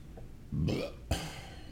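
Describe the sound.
A man's burp, a brief, low, croaky belch rising out of a faint, quiet background.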